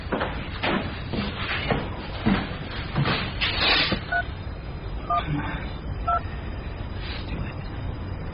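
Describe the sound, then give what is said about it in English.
Telephone number being dialed: a few short, evenly spaced dual-tone keypad beeps, preceded by several clattering knocks and handling sounds. “He's making a call.”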